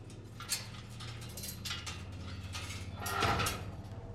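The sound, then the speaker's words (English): A metal door is unlocked and opened: a few mechanical clicks and latch sounds, then a sliding, scraping rush that swells near the end, moderately loud. “unlocks the metal door.”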